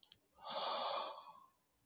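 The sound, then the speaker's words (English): A soft, deep breath during a guided relaxation exercise: two tiny clicks, then a smooth airy whoosh that swells and fades over about a second. “that calmness, and gently breathe it in and out. 3 deep breaths in and out,”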